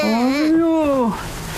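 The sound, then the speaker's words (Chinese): A baby cries in one long, high, tonal wail that rises and then falls in pitch before trailing off into quieter sound. “这是 怎么了？ 一直哭啊！”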